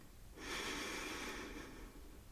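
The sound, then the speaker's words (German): Air is drawn slowly in through the nose during a calm meditation, a single soft, airy hiss lasting over a second, quiet and alone. “durch die Nase ein und aus. Mit jedem Ausatmen wird dein gesamter Körper ruhiger und schwerer. Atme ein”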